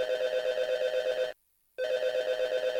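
A telephone rings as a listener phones in: two warbling ring bursts of even loudness, split by a brief silence.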